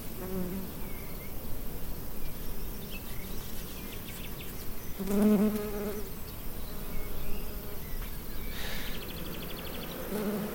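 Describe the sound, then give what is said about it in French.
Honeybees buzz at an open beehive in a dense, steady drone that fills the whole clip, with a few brief louder swells as individual bees pass. No one speaks. “Voilà, je vais la refermer cette ruche là.”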